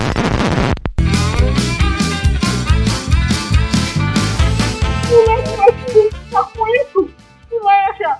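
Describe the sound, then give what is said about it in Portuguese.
A dog barks in quick, loud, regular bursts, then breaks into higher yips and whimpering yelps toward the end. “Isso é um cachorro.”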